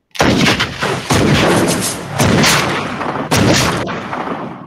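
Gunshot sound effect: four loud, booming shots come roughly a second apart. Each has a long rumbling tail that carries into the next, with no talk.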